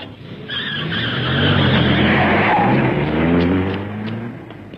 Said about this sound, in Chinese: 锥心的痛苦使他像发了疯似的开着汽车在夜幕之中乱闯。